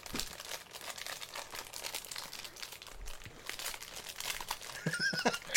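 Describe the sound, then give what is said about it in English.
Plastic wrapper of an Oreo being torn open, giving many faint, rapid crinkles and crackles that grow slightly louder toward the end. “Because you can definitely hear you tearing into the plastic of that Oreo.”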